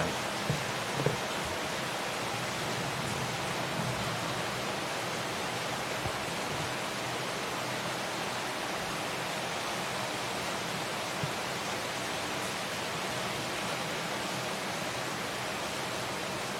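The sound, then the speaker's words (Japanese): Rain sounds played as background music from a YouTube video, a steady, faint hiss of falling rain that stays even throughout with no breaks. “YouTube で雨の BGM とか流すんですよこれね結構落ち着くんですよね落ち着いて集中できるんですよね”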